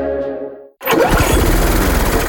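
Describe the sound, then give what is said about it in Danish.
Lawn mower engine running, a loud, steady, rough drone that starts abruptly after a brief silence and holds at an even level to the end. “Måske det er en ny græsslåmaskine, du har brug for. Det kan også være, at den bare skal repareres eller justeres lidt.”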